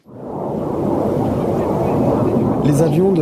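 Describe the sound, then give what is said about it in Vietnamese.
Coalition military aircraft over Mosul produce a loud, sustained low roar that swells up within the first half second and holds steady, with a voice briefly audible near the end. “Phi cơ của Liên quân quần thảo trên bầu trời Mosul, chúng ta có thể nghe thấy tiếng nhưng không trực tiếp nhìn thấy.”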